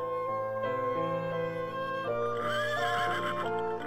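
A tall, large horse neighs in a stable, one long loud whinny with a strong harmonic tone that wavers and quivers in pitch as it goes on, with no voices.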